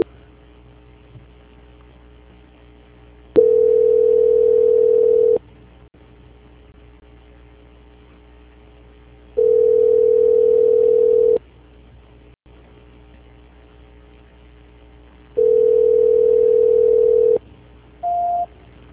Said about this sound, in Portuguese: Agradeço a atenção do senhor e peço que, por gentileza, aguarde em linha, que estarei transferindo a ligação para o controle de qualidade que dará continuidade à sua contratação, tudo bem? Transferência.